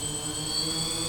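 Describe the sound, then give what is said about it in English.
A DJI Phantom quadcopter drone with four propellers powers up, giving a steady, buzzing, high-pitched motor whine with layered tonal hums, alone and without voices. “So that's the sound of it. DJI Phantom powering up.”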